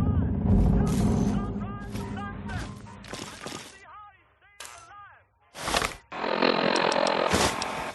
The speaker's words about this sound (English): All right, that was the Chinese assault rifle decapitating him. Here's his friend.